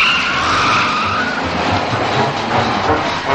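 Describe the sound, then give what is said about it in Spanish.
A car in a 1979 science-fiction film pulls away from a traffic light at full speed. Its sound is a loud, steady, harsh roar of engine and road noise with a hissing edge, with no talk. “Cuando el semáforo se pone en verde, la mujer pisa el acelerador y se marcha a toda velocidad.”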